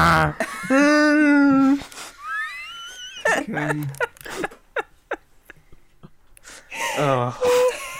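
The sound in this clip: A man wheezes with breathy, squeaky gasps and throaty catches between bursts of voiced growling that imitate Chewbacca, uneven and loud with short pauses between outbursts.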